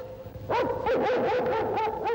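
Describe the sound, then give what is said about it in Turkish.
A dog used for tracking barks and yelps in a quick run of high, wavering calls with a whining tone, fairly faint and without voices. “Bu köpek hep böyle avlar mı?”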